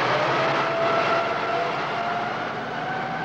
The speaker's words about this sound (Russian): Он заводит двигатель и уезжает.